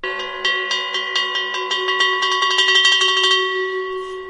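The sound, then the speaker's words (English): Struck metal bells from many cultures and historic periods, among over 100 bells used to make music, ring out in many clear strikes with overlapping sustained tones. The strikes come faster in the second half, and the ringing fades at the end. “different metals and over 100 bells from a wide mix of cultures and historic periods are used to create music”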